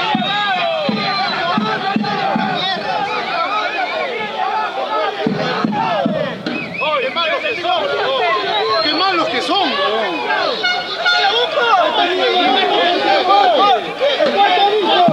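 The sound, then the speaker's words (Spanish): Football crowd at a Copa Perú match protests a foul with a dense, sustained wall of shouting and jeering voices, staying loud and steady throughout. “Se esquiva el límite. Infracción, sí, infracción. Y hay mucha molestia por parte del público.”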